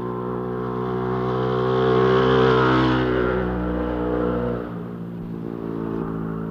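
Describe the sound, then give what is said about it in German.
A motorcycle engine revs and speeds off, a buzzing harmonic drone that swells louder toward the middle, then drops abruptly into a lower, rougher rumble for the last stretch. “Als einer der Ersten verließ Hans Höller das Haus, hatte sich auf seine Maschine geschwungen, gab Gas und sauste los.”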